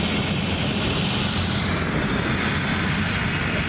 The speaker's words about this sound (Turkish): Şu anda da bir helikopter yine Bambisine suyunu aldı ve yangınlarla mücadele